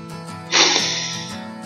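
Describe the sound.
A single sharp, loud breath drawn in before a fast-speech English challenge, rushing for close to a second and then fading, over steady tonal background music.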